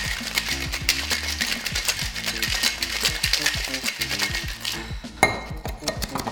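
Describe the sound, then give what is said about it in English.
Ice rattles in a cocktail shaker being shaken with Baileys and Frangelico: a fast, steady stream of bright clinks and knocks that runs throughout, with one sharper hit near the end. “Put all your mixes in the shaker. Make sure you put that in there. Give it a shake.”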